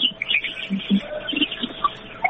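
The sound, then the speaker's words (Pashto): Birds chirping behind a caller phoning into a radio show, many short high tweets and chirps scattered through the thin, phone-limited line. “تاسو شاته د مرغان او ژغونه هم دي”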